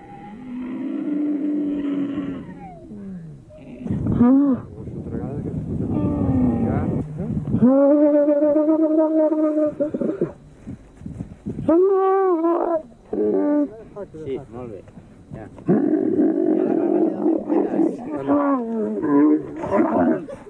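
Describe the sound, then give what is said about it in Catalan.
Camels from a herd in the Sahara desert, kept by the Polisario Front army, give deep groaning bellows. Several long, loud, roaring calls come in uneven bursts with short pauses between them. “En despertar, ens adonem que hem fet nit vora un ramat de camells que ara ens proporcionen llet fresca i els seus pastors l'escalf de la seva amistat.”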